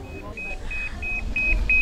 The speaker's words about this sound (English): This is how we are being paged. If somebody is looking for us, this is what they do. The bleep will go beep, beep, beep.